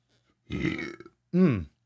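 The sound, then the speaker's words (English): Two belches come right after drinking water: a longer, rough first one, then a shorter, louder second burp with a falling pitch. “I don't think it's possible I can make it through a water break and not belch right after.”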